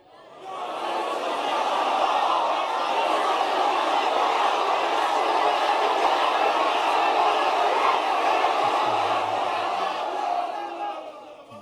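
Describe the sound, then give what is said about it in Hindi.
A crowd at a religious gathering loudly shouts the slogan Ya Rasool Allah Zindabad together, a dense roar of voices that swells quickly, holds for about ten seconds, then falls away. “मैं चाहता हूँ इस वक्त ऐसे कि दिल से एक ज़ोर के नारे मारो, पहले सुन लो, या रसूल अल्लाह जिंदाबाद।”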